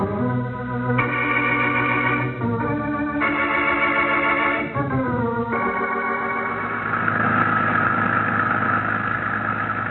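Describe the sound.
A car engine runs in a 1950 radio drama as the car drives up to a Defense Department storage depot gate: a steady low mechanical hum whose pitch shifts in several steps, then settles into a rougher, noisier drone, with no talk.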